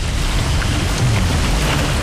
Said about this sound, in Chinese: 突如其来的狂风大潮袭击了长山列岛。